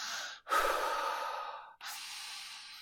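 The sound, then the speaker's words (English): Deep, heavy breathing from a panicking person trying to calm down, heard as a few long, breathy inhales and exhales, loud and alone with no talk. “Breathe. Just breathe. Big deep breaths.”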